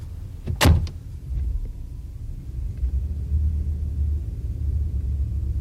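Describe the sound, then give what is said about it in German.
A car pulls up: one brief, loud burst early on, then a steady low rumble that carries on to the end. “Ihr Wagen ist vorgefahren.”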